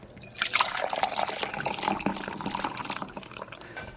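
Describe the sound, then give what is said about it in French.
Liquid trickles and pours as a verbena herbal infusion is strained, a continuous splashing flow with small drips that stays fairly steady throughout, with no voices. “Une fois que c'est bien infusé, je filtre.”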